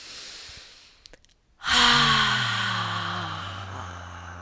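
Deep breathing during a guided breathing exercise: a quiet breath, then a long, loud voiced sighing exhale whose tone sinks slightly as it slowly trails off.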